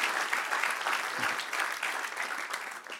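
Dense applause from a church audience, an even wash of clapping that holds steady for the full few seconds without a pause.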